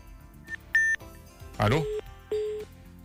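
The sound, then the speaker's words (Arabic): An incoming phone call rings with a few short electronic beeps at differing pitches, separated by pauses. A faint low background sits underneath. “في اتصال”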